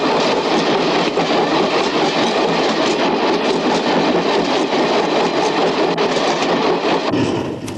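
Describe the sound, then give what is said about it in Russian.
Train wheels clatter on the rails in a loud, dense, continuous rumble with rapid rhythmic clacking, easing slightly at the very end. “Мелькают колеса поезда.”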